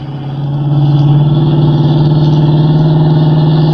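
Car engine droning during a chase, a steady low, pulsing hum that swells in loudness over the first second and then holds even, with no voices.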